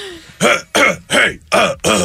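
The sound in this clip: A person clears their throat with a harsh, gravelly rasp repeated five times in a steady rhythm, each burst loud and separated by a brief gap.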